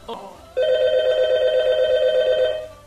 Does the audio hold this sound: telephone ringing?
yes